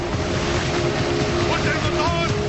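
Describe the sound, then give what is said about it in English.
A motorboat engine roars as the boat speeds up on open water, a loud, continuous drone blended with the wash of water and wind, holding steady throughout. “As the third boat speeds up”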